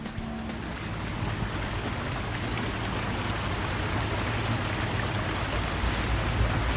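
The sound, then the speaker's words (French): A barge travelling on water gives a steady, loud wash of rushing water with a constant low drone underneath, unbroken from start to finish and with no voices. “Ça commence par un voyage en péniche.”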